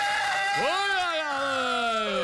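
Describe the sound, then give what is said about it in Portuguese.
A rooster crows once on a video: a long, loud harmonic call that swoops sharply upward, then holds and slowly sinks as it trails off. “Eu ia mandar um vídeo aqui com galo, mas quem será que me mandou esse vídeo com galo aí?”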